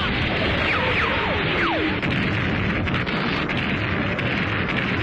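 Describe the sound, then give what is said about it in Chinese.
Artillery fire shells Jingtai Village as a dense, roaring barrage. A few descending shell whistles cut through a constant heavy rumble of blasts that stays loud throughout. “敌人的炮火向井台村打过来”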